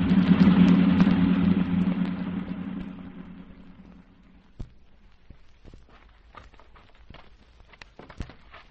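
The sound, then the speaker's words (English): A car driving fast on a winding mountain road gives off a loud engine rumble that fades steadily over a few seconds, leaving near quiet broken by scattered faint clicks. “don't you think you're driving a bit too fast”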